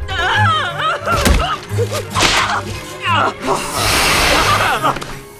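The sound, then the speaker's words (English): Sharp whipping swishes and smacks of a rolled-up newspaper, a pink swatter and a shoe hitting a bee, repeated many times over a busy, warbling voice-like layer that runs throughout. “A bee is being hit by a rolled up newspaper, a pink swatter, and a shoe.”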